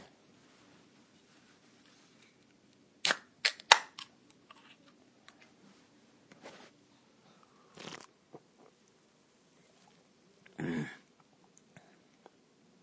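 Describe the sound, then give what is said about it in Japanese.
A chilled can of Kirin Ichiban Shibori 100% malt beer is cracked open with a few sharp snaps and pops, followed by scattered softer sounds as it is drunk in a quiet, cold room. “ここで、キリン麦芽 100% 一番搾りちょっといただきます。”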